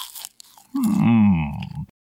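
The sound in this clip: Someone biting and chewing a habanero pepper: a few crisp crunches, then a drawn-out low voiced grunt.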